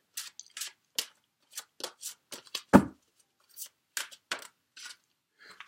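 Tarot cards being shuffled and handled before one is drawn: many short, papery flicks and slides in an irregular rhythm, one heavier thump near the middle, otherwise quiet between strokes and no talk.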